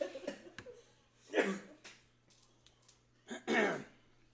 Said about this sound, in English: I'm coughing, but I'm trying to stop coughing.